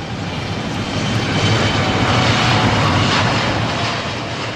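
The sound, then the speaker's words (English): A Boeing 787 Dreamliner taking off on a test flight in Berlin gives a continuous, loud, broad jet-engine roar that swells slightly through the middle and eases a little toward the end. “Here's the sound of Boeing's 787 Dreamliner taking off. This was in Berlin for a test flight, June 2011.”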